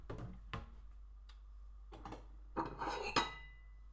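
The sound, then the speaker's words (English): A knife and cutting board being handled in a home kitchen: faint, scattered knocks and clatters of utensils against hard surfaces, with a small cluster of clinks toward the end. “Got a cutting board. Knife. I got a knife.”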